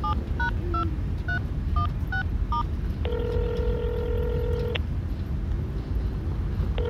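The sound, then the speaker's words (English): A telephone being dialed: a quick series of short touch-tone beeps, then a longer sustained tone and one more brief tone at the end, over a constant low rumbling background. “Call him. I'll dial here.”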